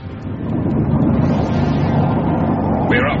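Spaceship rocket motors fire at launch, swelling within the first half second into a dense, low, steady roar that holds loud to the end.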